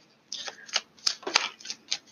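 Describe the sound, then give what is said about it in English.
Shuffling of a Taramucha tarot card deck: several quick, papery riffles and slaps of cards in an uneven rhythm, clear and alone. “I am shuffling my Taramucha deck.”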